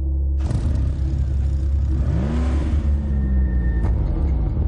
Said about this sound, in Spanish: Luke huye. El taxista sube al coche.